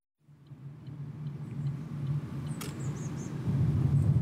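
A car drives through a palace park, its low engine rumble and tyre noise rising gradually in a steady drone, with faint high chirps overhead and a brief click midway.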